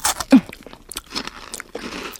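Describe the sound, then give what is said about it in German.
Crunchy bites into a star-shaped cookie with a sparkly sprinkled topping: a few sharp, brittle cracks followed by crackling chewing. No voices are heard. “Oh, der funkelt ja richtig, der Keks. Oh, den muss ich probieren.”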